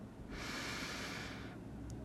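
A single slow inhaled breath, soft and steady, lasting just over a second, with no talk over it.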